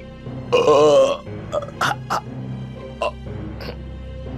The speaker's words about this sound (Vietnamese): từ trong cổ họng ông phát ra những tiếng ợ hơi rất là lớn